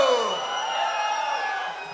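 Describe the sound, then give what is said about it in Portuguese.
A crowd shouts and cheers at a concert recorded for a DVD, a sustained, dense roar that holds steady and eases slightly at the end. “É gostoso, dá um grito!”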